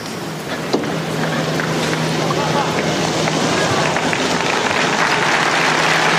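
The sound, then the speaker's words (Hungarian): Applause from pilgrims thanking Pope Francis for his blessing at the Wednesday morning general audience. The clapping is dense and steady, holding at an even level from start to finish. “Szokásukhoz híven a zarándokok ma is tapssal köszönik meg Ferenc pápa áldását, az ő tanítását”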